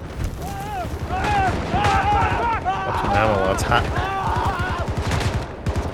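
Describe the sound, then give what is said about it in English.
Gunfire in a shooting video game rattles in dense, rapid bursts almost without pause, with deep booms underneath, while voices talk over the constant barrage. “Ooh, headshot. I'm running way low. Oh, it's so much shooting. This is crazy.”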